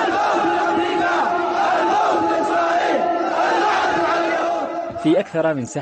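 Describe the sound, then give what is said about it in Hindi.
Thousands of Yemeni protesters in Sanaa chant slogans against the US designation of the Ansarullah movement as a terrorist group. The loud unison chant is sustained throughout and breaks up near the end into a clearer single voice. “सबका एक ही नारा है, America आतंकवाद की जननी। आज यहाँ और सनआ में हजारों यमनियों ने अमरीकी विदेश मंत्रालय द्वारा अंसारुल्ला आंदोलन को आतंकवादी गुटों की सूची में डालने के विरोध में प्रदर्शन किए।”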